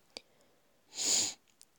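A single sniff from someone with tree-pollen allergies: a short, breathy, hissing rush of air lasting about half a second, preceded by a faint brief click, with no talk.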